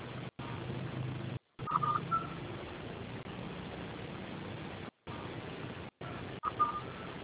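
Telephone keypad tones while a call is transferred: a few brief, faint beeps over steady phone-line hiss, with short gaps of dead silence.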